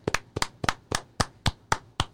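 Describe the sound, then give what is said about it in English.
Crisp single hand claps repeat in an even rhythm at about four per second, sharp and distinct with nothing else behind them, as praise for baseball players after a Yankees win. “Claps for Monty. Claps for Chad. Claps for Zach. Claps for Chapman.”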